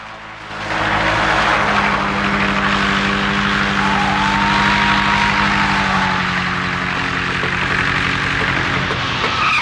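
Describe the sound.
Two-seater Cessna plane racing around an airport while chased by cars, a loud, continuous engine roar and droning hum that holds steady throughout.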